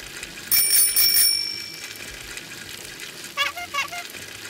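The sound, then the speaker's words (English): A bicycle bell in a sound-guessing game: a quick run of bright, high rings lasting under a second, followed later by a shorter burst of fainter tones. “All right, then here's a bike.”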